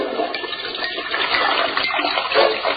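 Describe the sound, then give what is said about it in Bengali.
A toilet flush roars for nearly three seconds, a loud, steady rush of water that swells briefly toward the end. “বাবারে পানি তো জমতে দিছে না, তার আগে ফ্ল্যাশ করে ছেড়ে দিছে।”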